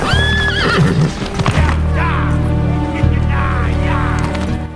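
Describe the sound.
Horses whinny and their hooves clip-clop as rangers saddle up and ride off in a Western audio drama, loud neighs at the start and again midway over rumbling hoofbeats, with voices mixed in.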